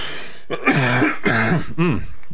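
Three voiced throat-clearing coughs follow one another, each a short, rough, moderately loud burst with no talk around them.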